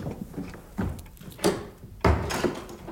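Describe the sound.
A house door being shut: a few dull thuds and knocks with faint rattling, the last thud the heaviest.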